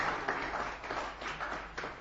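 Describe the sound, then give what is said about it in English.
Round of applause from a group at a campfire sing-along: faint, scattered hand clapping with a few stronger bursts, fading slightly toward the end. “Very good. Give yourselves a round of applause for that one.”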